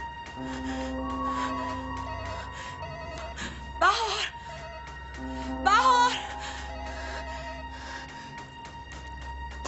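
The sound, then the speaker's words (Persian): A telephone rings in two short electronic bursts over ongoing speech and a steady background. “من اینجا هستم، صدای زنگ داری چیزی نیست.”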